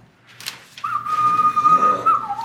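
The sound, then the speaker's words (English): A person whistles one long, steady high note that holds for well over a second with a slight waver. It is loud and clear, with a few brief soft noises just before it and no talking. “It's working! Keep whistling!”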